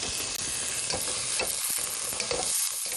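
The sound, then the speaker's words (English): Cubed sweet potato with the skin left on sizzles loudly in a pan as it is stirred. A constant, hissing fry runs throughout, broken by brief scraping stirs. “Just give this little guy a little bit of a stir.”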